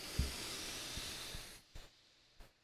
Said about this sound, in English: Count of 3, take a nice deep breath in.